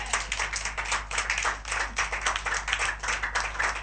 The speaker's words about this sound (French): On acclame le Seigneur, s'il vous plaît.